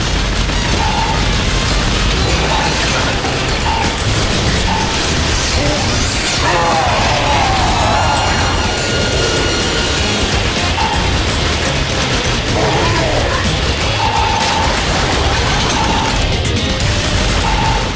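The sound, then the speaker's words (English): Video-game combat with machine-gun fire and missiles: dense, loud, unbroken mechanical rattling mixed with crashing booms and clanks, sustained at high intensity throughout. “So he's shooting a machine gun across the sky while we try to clear out the weak ones to get magic power.”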